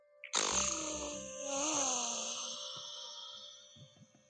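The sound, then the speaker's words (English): A single long, faint exhale through one nostril of a badly blocked nose during an alternate-nostril breathing exercise. It has a whistling, snuffling nasal tone that swells midway and then slowly fades. “Sorry about the sound. I've got really blocked nose.”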